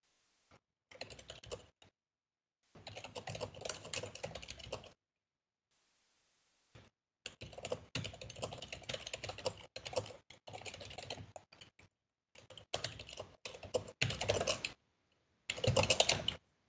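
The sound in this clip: Typing on a computer keyboard comes in several bursts of rapid, clicky keystrokes separated by short silent pauses, with a faint steady hiss running beneath.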